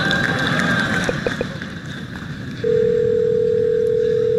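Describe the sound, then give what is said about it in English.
A telephone line dials out as an automated assistant places a call to a hair salon. Muffled background noise gives way partway through to a steady, unbroken tone that holds to the end. “So what you're going to hear is the Google Assistant actually calling a real salon to schedule the appointment for you.”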